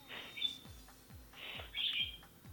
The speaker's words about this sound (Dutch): Heb jij vogels thuis? Ik heb hier een vogeltje, ja.